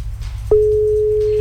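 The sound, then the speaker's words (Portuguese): Telephone ringback tone while a call is being placed: a steady, single-pitched tone starts partway through and holds evenly to the end over a low background hum. “Tá chamando. Será que ela vai atender ou tá fazendo almoço? Chamando.”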